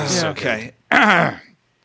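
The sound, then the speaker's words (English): Throat clearing in two rough, voiced bursts separated by a short gap, the second longer and fuller, loud and alone. “clear that throat. I have to here.”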